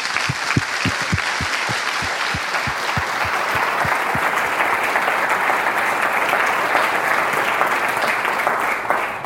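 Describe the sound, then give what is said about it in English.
Audience applause welcoming a guest speaker to the stage. A few distinct claps at the start quickly build into dense, steady, continuous clapping that holds at a moderate level for about nine seconds. “Very, very pleased to have Dr. Ishak with us here today. Let's give him a very warm welcome.”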